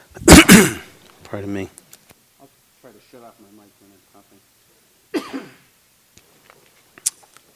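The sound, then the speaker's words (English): Coughing from a person at the tail end of a cold: a loud, harsh cough at the start, some throaty voiced sounds, then a second, shorter cough and a few faint clicks. “I'm sorry about the little bit of coughing. It's a tail end of a cold.”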